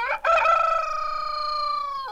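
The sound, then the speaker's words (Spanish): A rooster crows in a two-storey henhouse in a village house courtyard, with broody hens upstairs and laying hens below. One long, loud, steady harmonic crow holds for about two seconds after a brief catch at the start. “Don Hilario tiene un gallinero dividido en dos plantas. Arriba las cluecas y abajo las ponedoras.”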